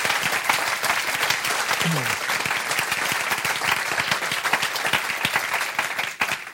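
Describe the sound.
Audience applause at an evening event, a dense, steady wash of many hands clapping that holds loud throughout and tails off at the very end.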